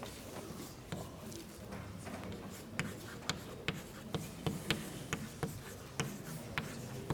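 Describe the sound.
Handwriting strokes, faint and scratchy, with sharp little taps that grow more regular toward the end, over a low, hushed background.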